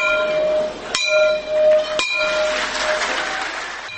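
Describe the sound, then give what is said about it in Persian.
A school bell is rung at a ceremony opening the new school year in Afghanistan: two sharp metallic strikes, each followed by bright, sustained ringing tones that linger over softer background noise. “سال نو تعلیمی 1392 شمسی در افغانستان به روز شنبه با نواختن زنگ مکتب از سوی رئیس جمهور کرزی آغاز گردید.”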